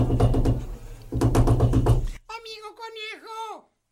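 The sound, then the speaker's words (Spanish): Insistent knocking on a door, many rapid, heavy blows hammering in two long runs, followed by a voice crying out in a wavering, wailing tone. “Y de pronto llamaron a la puerta, con gran insistencia.”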